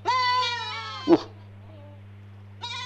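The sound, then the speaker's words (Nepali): Goat bleating inside a room: one long, wavering, nasal bleat, then a short thump and a pause before a second bleat begins at the end, all over a steady low hum. “मान्छे बोल्यो कि बाख्रा बोल्यो, केही बुझ्दिनँ म। एकचोटि मान्छे बोल्छ, एकचोटि बाख्रा बोल्छ, कस्तो खतरा। ए बाख्रा कोठाला आउनु भएको,”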